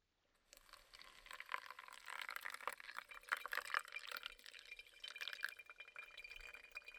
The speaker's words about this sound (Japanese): お湯を注ぎます。